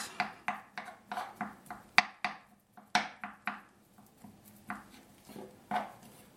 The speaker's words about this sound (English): This is very exciting to hear. A knife chop stuff.